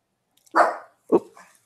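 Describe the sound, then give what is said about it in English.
A pet dog barks twice, alone: the first bark is fuller and longer, and the second is a shorter, sharper yelp-like bark that follows after a brief pause. “For those of you who just heard a weird noise, that was my dog.”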